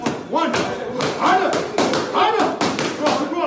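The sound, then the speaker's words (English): Dull punching thuds in a boxing class at the Punch Force Fitness gym, landing in a quick, uneven series of many strikes while people talk over them. “This is the sound of Karla Martinez punching at Punch Force Fitness with Nunu, the owner of the gym.”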